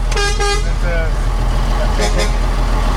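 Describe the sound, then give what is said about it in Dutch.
A convoy of vehicles driving behind while slowly leaving Emmen, with a constant engine drone and a few short horn toots, grouped near the start and again later. “Kijk, hier staat de kolonne die achter ons aankomt.”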